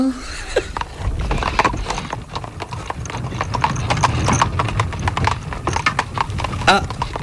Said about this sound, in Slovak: Opatrne si ráčte sadnúť do koča.